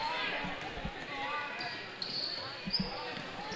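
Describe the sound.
A basketball is dribbled during a women's game involving a USA team, with a few dull, faint bounces heard under steady background noise and voices.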